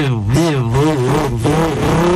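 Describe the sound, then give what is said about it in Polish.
A voice imitates a car overtaking, making a continuous buzzing engine sound whose pitch wavers up and down like revving. “i tam wyprzedza, migacze włącza, klakson i takie różne efekty samochodowe. Chłopaki, czym ten efekt zrobił? Ustami.”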